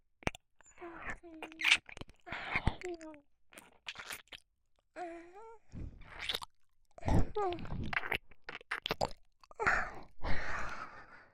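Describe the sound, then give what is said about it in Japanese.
Wet licking and mouth sounds come in a few irregular bursts of smacks and slurps, mixed with soft breathy vocal sounds and short voiced moans between quiet gaps. “もっと舐めよう。”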